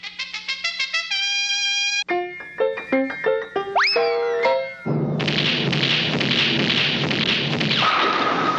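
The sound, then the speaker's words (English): A bowling ball knocks down all the pins for a strike, a long, loud crashing clatter that follows a quick run of bright, cartoonish boinging musical tones and thumps. “A strike!”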